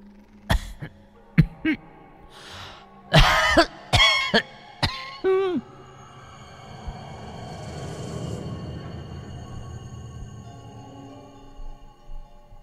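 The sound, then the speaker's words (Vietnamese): Harsh, raspy coughing from an elderly woman with long-standing asthma comes in a run of several loud, uneven bursts over the first few seconds, then gives way to a low, droning background. “Đột nhiên có tiếng ho khổ khổ vang lên làm cho bác giật mình.”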